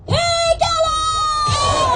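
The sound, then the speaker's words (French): Tibetan émigré protesters outside the Capitol raise their rallying cry for a free Tibet, a loud, drawn-out, high wailing call that wavers and slides over about two seconds. “Ce que vous venez d'entendre, c'est le cri de ralliement pour un Tibet libre.”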